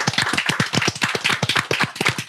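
Applause in a rhythmic pattern, with many sharp, distinct claps repeating in a quick, fairly steady beat. The claps are crisp and fairly loud, with no voices over them.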